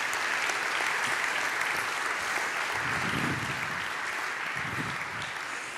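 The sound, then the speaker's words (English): Audience applause greets a man coming up to the front at a faith gathering: dense, steady clapping that holds at an even loudness for the whole stretch, with no voices standing out. “Would you give one of our legends of the faith, Peter Salisbury, a big hand as he comes up?”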